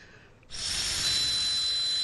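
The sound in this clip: A person blows steadily into a breathalyzer, a loud, breathy hiss that begins abruptly after a short quiet lead-in and holds to the end, carrying a thin, high whistling tone from the device.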